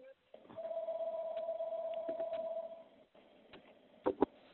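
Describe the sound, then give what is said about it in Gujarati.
A mobile phone rings during a talk, sounding as one steady, moderately loud electronic tone that holds for about two and a half seconds and then stops. “કિસકા phone બજ રહા Hai? Please can you mute.”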